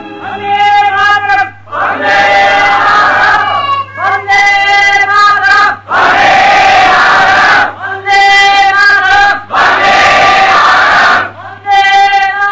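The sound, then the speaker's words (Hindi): Crowd shouting patriotic slogans outside an assembly hall during speeches, with loud rhythmic group chants alternating with bursts of roaring, noisy commotion, repeating several times. “ये भाषण चल ही रहे थे कि सभा मंडप के बाहर वंदे मातरम के नारे और शोरगुल सुनाई देने लगा।”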